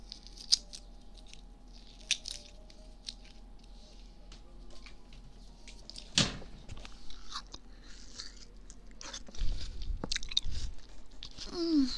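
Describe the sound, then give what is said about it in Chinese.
Someone chews something sweet in soft, crunchy bites. The mouth noises are faint and irregular, with a few sharper clicks and crackles. “吃点甜的。”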